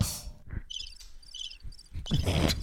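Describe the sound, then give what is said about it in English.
Cricket chirping sound effect: a few short bursts of high, rapid trilling chirps separated by quiet gaps, with some low thumps in between and no voices. “That's the sound of crickets applauding the joke.”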